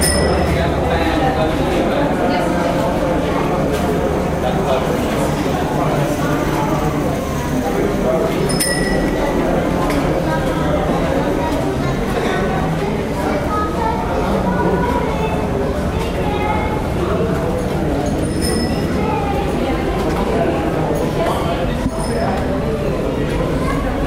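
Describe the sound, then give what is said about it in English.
Crowd ambience as racing fans, some draped in Swiss and French flags, walk through a tunnel at a motor racing event: a continuous dense murmur of many voices and footsteps, with occasional light metallic clinks. “people all around me draped in Swiss flags and French flags, and people from all over the racing world walk through the tunnel. Let's just hear the vibe.”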